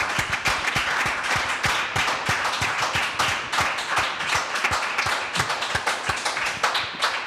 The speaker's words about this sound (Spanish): Un aplauso para Templeton.